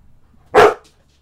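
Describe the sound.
A person imitates a dog barking, giving a single short, loud, gruff bark against an otherwise quiet background.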